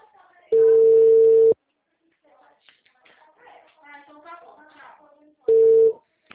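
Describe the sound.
Telephone busy signal after a dropped call: a steady, mid-pitched tone sounds for about a second. A person then talks, and the same flat tone returns briefly at the very end.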